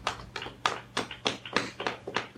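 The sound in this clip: Steady rhythmic tapping as a relaxation exercise: many soft, crisp taps in an even pulse, alternating stronger and lighter strikes, heard alone without voices.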